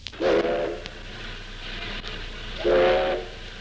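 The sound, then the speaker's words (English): A steam locomotive whistle sounds on the engine's final run through the Colorado Rockies: two loud, sustained blasts, one near the start and one near the end, separated by a lower stretch of hissing, rumbling background. “This is the sound of steam engine number 683 in its last run through the Colorado Rockies”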